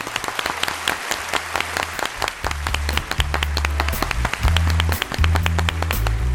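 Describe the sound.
Applause from many hands fills the whole stretch: a dense, continuous patter of claps, fairly loud and unbroken, with no voices over it.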